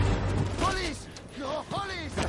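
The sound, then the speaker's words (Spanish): Gunfire rings out from a moving car during a scene in a science-fiction action film. Several shots sound against vehicle noise, and a narrating voice speaks over the scene. “Edgar mueve el volante y el vehículo avanza. Dispara mientras conduce.”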